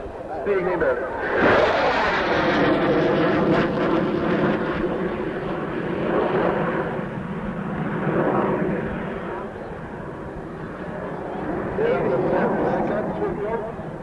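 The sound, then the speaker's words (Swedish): A Saab 35 Draken delta-wing jet fighter, a 1950s design, roars past with a broad, rumbling engine noise that holds steady, eases briefly and swells again, while speech runs over it. “1550 på flygplan 35 Draken. Där kommer han, och sen ska han gå till 10 000 runt.”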